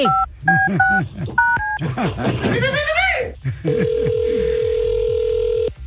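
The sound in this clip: Telephone keypad dialing in a Spanish-language call: a quick series of sharp, clear touch-tones, then voices, then a long, steady, unbroken tone that holds for about two seconds.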